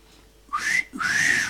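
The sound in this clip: A human wolf whistle aimed at a pretty woman passing by comes as two clear notes: a short upward-sliding chirp, then a longer whistle that climbs and falls away, fairly loud with no talk.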